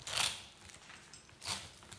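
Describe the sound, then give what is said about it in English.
A brush pulled through wet, conditioned wig hair to work out knots. Two soft, faint swishing strokes are separated by a stretch of near quiet. “I gave it some conditioner. And I'm gonna brush it out to get all of”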